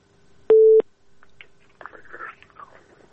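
A telephone ringing tone on a listener's phone-in call: a short, steady mid-pitched tone, then faint muffled, crackly line sounds.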